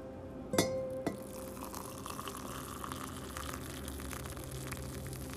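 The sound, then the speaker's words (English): Instant coffee is poured from a red teapot into a cup. Two sharp clinks come near the start, followed by a faint, steady liquid trickle that continues quietly to the end. “It is time to burn my little finger on my red cute little teapot every single morning as you join me for a delicious cup of Nescafe.”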